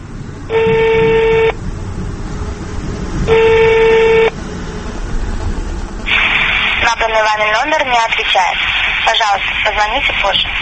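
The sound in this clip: Steady electronic tones from dialing a phone number on a telephone: two separate tones, each lasting about a second, over a constant background hum, then a voice speaks.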